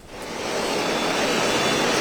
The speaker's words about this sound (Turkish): Bizler Haramidere Sanayi'deyiz Beylikdüzü'nde ve burada şu an o yağmur etkisini göstermeye